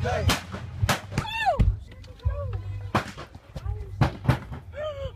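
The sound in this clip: Several sharp gunshots fired by police officers at a man in Baton Rouge, loud cracks at irregular intervals, mixed with raised, shouting voices.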